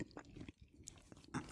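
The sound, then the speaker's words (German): Biting into and chewing bread to clear a lingering cheese taste, with soft, faint crunching and mouth sounds in short irregular bursts, growing a little louder at the end. “Also ich muss jetzt auch zweimal abbeißen vom Brot, dass ich jetzt einigermaßen den Geschmack rauskriege.”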